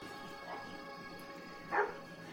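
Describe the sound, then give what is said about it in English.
A dog barks: two faint barks, the first soft and the second louder and sharper, over a quiet, steady background hum. “That's a dog barking.”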